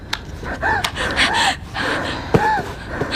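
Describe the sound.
Frightened gasping and deep breathing from someone in panic: a run of loud, ragged breaths with short voiced catches over steady background noise.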